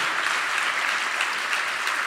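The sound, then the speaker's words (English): Sustained audience applause at an evening live event, a thick, even wash of clapping that holds at a steady level from start to end, with no talking. “I will note the most sustained applause of the evening.”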